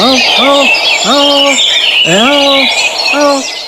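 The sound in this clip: Birds chirp and twitter in a dense, continuous high chorus, while louder, lower harmonic calls with arching pitch repeat several times over the top.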